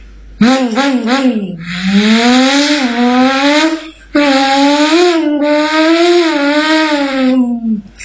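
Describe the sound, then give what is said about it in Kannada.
A voice imitates a motorbike speeding past at full speed: a loud, sustained engine-like drone with a wavering pitch, breaking off briefly midway before continuing. “ಒಂದು bike full speed ಆಗಿ ಹೋಗುತ್ತಿತ್ತು.”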